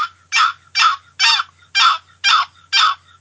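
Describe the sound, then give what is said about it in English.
Seven slow, evenly spaced, raspy yelps come from a box call imitating a turkey gobbler. Each loud note is cleanly separated by a short silence, so the rhythm is steady and deliberate. “All right, I got my box call here. All right. Okay, you're yelping. You know, hen's kind of fast, you know. Quick and fast word. Gobbler yelp, just slow that down.”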